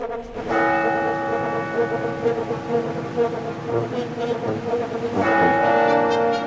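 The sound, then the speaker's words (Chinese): A bell tolls midnight at Christmas in a city, with deep resonant strikes and long ringing overtones that overlap and sustain. A fresh strike comes near the end, heard alone without voices. “午夜十二点的钟声响起了”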